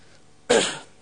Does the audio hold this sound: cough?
yes